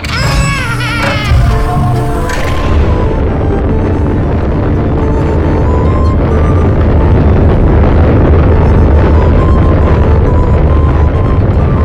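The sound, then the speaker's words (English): A collapsing, erupting volcano in an audio drama, heard as a dense, loud, low roar that sets in after a couple of seconds of tonal sound and rumbles on steadily to the end. “Farewell, fool. Die in the collapse of the volcano.”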